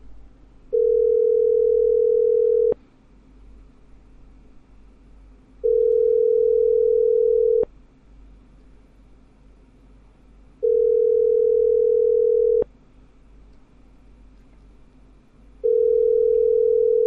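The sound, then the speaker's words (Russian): Telephone tone while placing a call, four long, steady mid-pitched beeps of about two seconds each separated by roughly three seconds of quiet, each ending with a short click. “Я сейчас звоню.”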